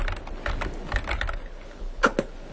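Typing on a computer keyboard, with bursts of soft, irregular key clicks, a quieter pause midway, then two sharper, louder keystrokes near the end.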